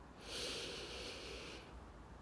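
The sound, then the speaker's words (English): A deep breath drawn in through the nose during a guided meditation, heard as a steady, breathy nasal hiss lasting just over a second before it cuts off, alone with no speech. “take a deep breath for me. In through the nose”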